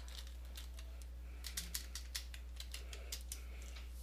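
Keys clicking as a search is typed on a keyboard, about a dozen light taps starting partway through, over a steady low hum.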